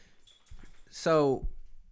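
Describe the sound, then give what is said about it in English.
A dog hacking: one short, harsh burst about a second in, clearly louder than the faint low background around it. “that's my dog Porter, if you heard the hacking in the background”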